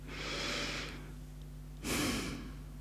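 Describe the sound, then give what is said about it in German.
A deep breath: a long airy inhale, a brief pause, then a fuller, louder exhale, with a steady low hum running underneath throughout. “schließe einmal kurz die Augen und atme tief durch.”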